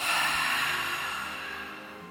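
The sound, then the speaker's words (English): A single long, breathy ha exhale from a breathing exercise rushes out strongly at first and then slowly fades over about two seconds, with no talk over it. “energize this picture with three ha breaths. And as you energize the picture, we're going to breathe together. So go ahead and inhale.”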